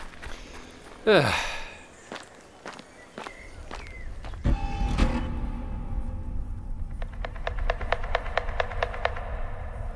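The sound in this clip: Hurried footsteps of people fleeing in a German Pokémon audio drama, with a sudden swishing rush early on, then scattered thuds and a run of many quick, light steps near the end.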